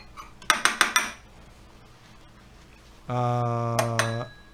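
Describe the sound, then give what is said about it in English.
Electric whisk whisking powdered sugar in a bowl: four quick metallic clinks against the bowl, a pause, then a steady, humming motor whine lasting just over a second. “He's whisking with an electric whisk.”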